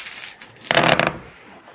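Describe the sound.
Five dice are rolled for a skill check, giving one brief rattling clatter lasting about half a second before it fades to quiet.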